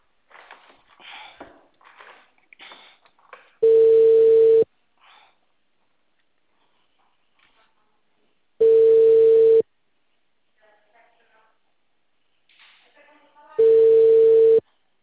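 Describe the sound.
A telephone tone sounds on the line after the caller says hello and hangs up: three long, steady, mid-pitched beeps spaced about five seconds apart, with faint voices and rustling in the gaps between them.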